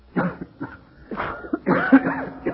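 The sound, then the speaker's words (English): A man coughs after blowing dust off a hotel register, giving several harsh, throaty coughs and rasping throat-clearing bursts in an uneven sequence. “Blow this dust off.”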